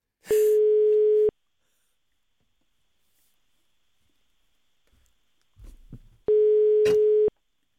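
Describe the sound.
Two steady ringing tones on a telephone call, each about a second long, separated by a long near-silent gap with a brief soft rustle just before the second tone.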